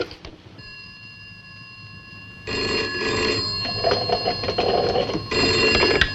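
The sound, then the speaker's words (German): A telephone bell rings loudly on its own in long, continuous metallic trills. Two extended rings are heard, separated by a very short break, and a steady tone sounds before them. “Tarling glaubt noch immer, dass Anne bei ihrer Mutter ist und ruft sie an.”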